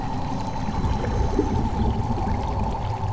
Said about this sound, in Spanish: ¡Sale líquido verde! No lo puedo creer.